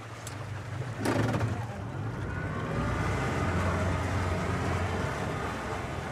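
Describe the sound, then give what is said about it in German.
A powerful outboard motor pulls a boat backwards out onto a river in Syria's Kurdish region: a steady low engine drone under broad rushing noise, with a brief louder burst early on. “Ein starker Außenbordmotor zieht das Boot rückwärts auf den Fluss hinaus.”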